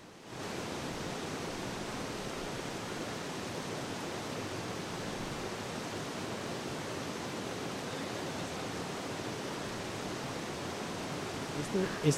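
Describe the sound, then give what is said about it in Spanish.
The Pance river flows in a steady, even rush that sounds like white noise, holding a constant level throughout before a few soft knocks near the end. “Este sonido que parece un ruido blanco que está de fondo es lo que queda del río Pance.”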